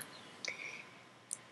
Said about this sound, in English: The whole surface is clickable, but also responds to your touch. But it clicks.